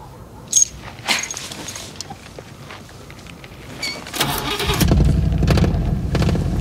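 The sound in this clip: An old car from 1957 is started. A few clicks and rattles come first, then the engine cranks and catches into a loud, steady rumble that runs to the end.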